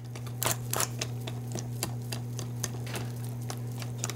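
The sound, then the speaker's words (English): A wire whip clicks rhythmically against a bowl while beating dry ingredients into pudding batter, a steady run of sharp ticks over a low constant hum. “You know you're going to have to cut out some of this whisking. People aren't going to put up with 10 minutes of whisking.”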